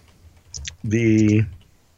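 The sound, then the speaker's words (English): Slow typing on a computer keyboard, with a few light, separate keystrokes followed by a short voiced hum from a person. “I'm gonna very slowly type and try and remember what year that came out”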